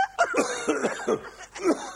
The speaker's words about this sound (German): Sag einmal, woran hast du dich denn jetzt so verschluckt? Ich weiß nicht, wenn ich das wüsste. Und so einen komischen Husten hast.